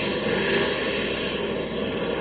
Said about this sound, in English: Hey, what was that? We're in trouble. Oil pressure's gone on port engine.